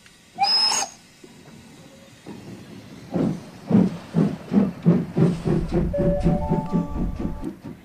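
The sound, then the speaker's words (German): Train sounds on platform 9 at Vienna Südbahnhof railway station: a brief whistle-like tone, then a steady series of rhythmic low thumps with hiss that builds and carries on to the end. “Wien Südbahnhof, Sie befinden sich auf Bahnsteig 9.”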